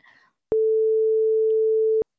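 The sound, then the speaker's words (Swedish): A telephone tone while calling someone: one steady, clean electronic beep of medium pitch, about a second and a half long, starting and stopping abruptly after a moment of silence. “Men jag ska ringa henne och se om hon har några tips.”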